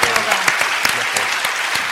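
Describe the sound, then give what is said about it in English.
Audience clapping at a talk about a plastic-bottle sea expedition, continuous and fairly loud, with sharp individual claps standing out from the dense patter. “So I'm going to clap you again, David”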